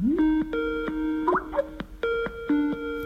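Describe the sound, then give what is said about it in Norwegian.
A Skype call rings with a bright electronic tune of stacked tones, played in repeating phrases separated by short gaps. No voices. “Vent litt, skal se om hun klar på Skype.”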